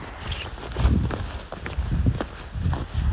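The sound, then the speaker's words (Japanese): Footsteps crunch along a riverbank path under about 20 cm of snow on a quiet winter morning, a steady walking rhythm of soft, muffled steps with low thuds. “今年はまだ雪が少ないといっても20センチぐらい積もってるんですが、歩きやすいですね。はい、雪の道を歩いてます。”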